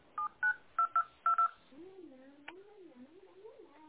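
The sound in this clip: Six short, bright DTMF keypad tones as a telephone number is dialed, quickly spaced, followed by a softer wavering tone.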